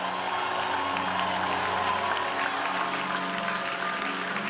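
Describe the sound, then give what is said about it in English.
A church audience claps and shouts, a dense, continuous wash of applause and crowd noise that holds steady throughout. “Now out to your clap, a shout of victory as you receive and welcome Apostle Michael Uroko as it comes forth with the word of God.”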